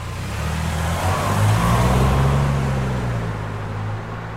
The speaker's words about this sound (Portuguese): Hoje viajamos de automóvel.